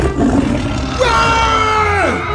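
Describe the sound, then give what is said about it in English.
A tiger roaring, rough low rumbling that swells into a loud, sustained harmonic roar, holding steady before dropping in pitch at the end. “Is that tiger supposed to be out?”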